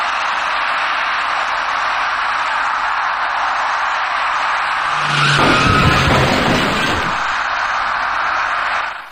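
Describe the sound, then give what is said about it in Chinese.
A taxi's tires skid at a city intersection as it brakes too late and strikes an electric bicycle rider. A harsh burst of screeching noise rises out of a constant background hiss and then fades after a couple of seconds. “一辆在绿灯指引下由西向东正常通行的出租车，因为司机采取措施不及，把那位骑车人撞翻在路口里。”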